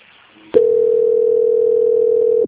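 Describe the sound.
A telephone line tone plays during a call transfer as one steady, mid-pitched beep lasting about two seconds. It starts abruptly after a faint hiss and cuts off sharply.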